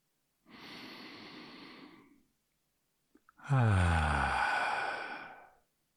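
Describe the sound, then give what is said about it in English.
A person takes a deep breath: a long breathy inhale, a short pause, then a louder, drawn-out exhale that becomes a voiced sigh and fades. “Sometimes you just gotta take a deep breath. Do it now. Take a deep breath. Should we do it together?”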